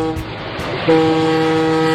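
A passenger ship's horn sounds as the vessel departs, a steady, deep, harmonic blast that begins partway in and holds unbroken to the end over a low background rumble.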